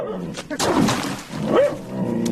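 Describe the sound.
A yellow-eyed dog barks, giving a few loud, rough barks and yelps in close succession.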